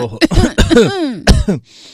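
A person who has just woken up and has a cough coughs and clears their throat in several loud, harsh bursts, with raspy voiced sounds between them.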